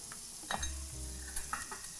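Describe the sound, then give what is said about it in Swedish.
Soy sauce simmers with mushrooms in a pan, giving a faint, steady sizzle with a few light clinks of a utensil against the pan. “Nu kan du hälla lite soja. Ja. En tesked kanske. Den hemliga sojan som vi inte har pratat om. För det där är en matsked. Jag vet.”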